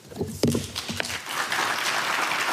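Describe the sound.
Brief, scattered applause after a speech by Ulf Kristersson. It begins after a short spoken voice and thickens into a soft, even patter toward the end.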